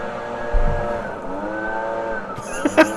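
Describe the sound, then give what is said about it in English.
A lawn mower and leaf blower running outside, mowing a lawn and blowing away cut grass, make a steady, loud droning engine hum that continues throughout, with a couple of brief sharper bumps near the end. “It's like louder. They keep getting closer and closer. It's driving me insane. I don't get it, though. Like, it sounds like they mowed the lawn and then they're blowing away the grass.”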